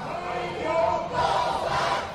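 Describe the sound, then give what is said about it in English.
A packed crowd cheers at a political rally for Ma, a dense roar of many voices that swells, dips briefly near the middle, then surges again and holds loud to the end. “At the rally, a packed crowd gives Ma credit for that and more.”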